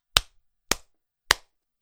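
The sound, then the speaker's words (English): Three sharp single hand claps during a video recording, crisp and evenly spaced about half a second apart, each a short bright crack with a brief decay into near silence. “What I'm going to do is I'm going to clap”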